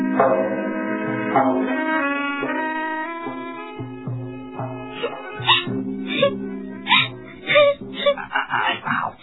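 A woman cries in a long, wavering wail that moans up and down in pitch, then breaks into shorter, choppier sobbing bursts toward the end.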